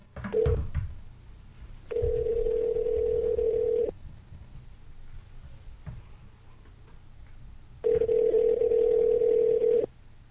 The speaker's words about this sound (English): Trying to get a caller on the line while recording. Okay, let's try and get him on the line.